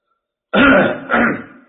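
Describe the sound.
A man coughs and clears his throat in two loud, rough bursts, the first longer than the second, with no other sound around them.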